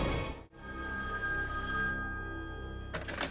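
A telephone bell rings loud and unbroken, with a single brief pause near the start before the ringing carries on.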